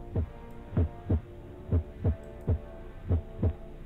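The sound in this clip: Pounding heartbeat sound effect: eight deep, low thumps in a steady, slightly uneven rhythm over a faint hum, with no voices.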